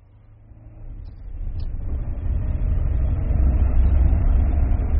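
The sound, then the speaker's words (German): Low engine rumble of a car pulling away on a test drive, steadily building in loudness and holding as a dense, broad drone to the end, with no voices. “fahr mit dem Herrn ein Stück, aber nicht zu lange.”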